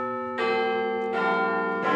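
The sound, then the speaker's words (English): A clock tower bell at Westminster sounds three loud strikes, each new stroke layering over the sustained, humming ring of the one before. “Now, we don't often hear the one chime at 15:15. We do this morning.”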